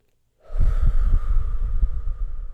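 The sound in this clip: A deep breath drawn during a guided relaxation exercise: a steady, breathy rush that starts abruptly after a short silence and carries on with a low rumbling texture, with no talk.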